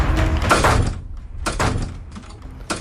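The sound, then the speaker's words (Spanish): Doors are opened and closed one after another in a tense scene, giving a few quick bangs, thuds and rattles in close succession. “Abro y cierro puertas desesperada una tras otra para encontrarme siempre ante lo mismo”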